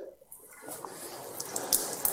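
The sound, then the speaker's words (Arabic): Water runs as hands are washed during wudu ablution, starting after a brief quiet moment and settling into a steady splashing hiss with a few small splashes toward the end. “وإمرار اليد على اليد هكذا هي السنة، هذا يسمى التدليك. لكن لو غسلت يدي بهذه الطريقة مثلا،”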